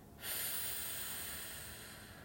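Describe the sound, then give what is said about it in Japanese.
A slow, steady exhale during a guided breathing exercise: a soft, airy hiss that starts abruptly and fades gradually over about two seconds, with no talking. “はい、また笑顔で吸います。はい、じゃあ吐きます。”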